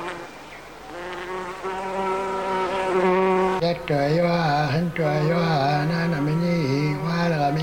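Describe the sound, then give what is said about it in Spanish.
A buzzing fly gives a continuous droning hum with steady loudness. Its pitch wavers and bends in the second half, with no talk over it. “La mosca.”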